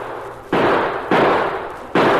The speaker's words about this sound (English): Hold your fire! Hold your fire! No use shooting anymore.